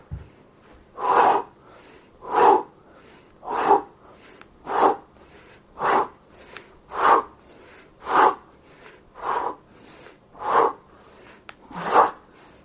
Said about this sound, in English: And now is the time to get to the fifth round of push-ups. It's workout time. Let's do this.